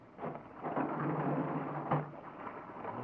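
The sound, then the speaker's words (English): A heavy hatchway on a barge moored at a dockside being opened: a sustained rough rumbling scrape with one brief louder knock partway through, heard alone. “Open the hatchway”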